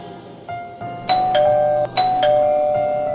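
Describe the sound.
A doorbell chimes at a family home during a Christmas Eve gathering with two bright, loud ding-dong pairs in quick succession. Softer tones come just before, and the ring lingers afterward.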